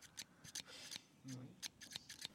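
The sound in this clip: Pruning shears cut invasive plants during forest restoration work to protect petrels. A series of crisp, quiet snips and metallic clicks comes in an irregular rhythm, with brief rustling between the cuts.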